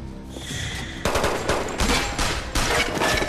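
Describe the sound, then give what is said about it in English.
Bullets hit large armored panels under heavy gunfire, starting with a quieter stretch and then breaking into several loud bursts of dense, rapid cracks. “They flinch at the noise of the bullets hitting the panels.”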